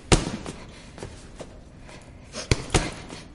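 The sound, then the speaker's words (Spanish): Punches striking a boxing punching bag: several dull, heavy thuds at uneven intervals over a quiet background, the first and the final pair hitting hardest. “Al fondo se recorta la silueta de Maggie golpeándolo. Scrap se dirige a ella que permanece estática mientras golpea.”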